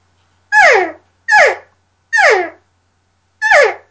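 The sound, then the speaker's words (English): Four separate calls blown on a diaphragm game call, the tongue pressed lightly against the latex reed. Each is a short, raspy, harmonic note that slides downward in pitch, evenly spaced, with no voices. “But then when I have a diaphragm call in my mouth and I push my tongue up against the latex lightly, it sounds like this.”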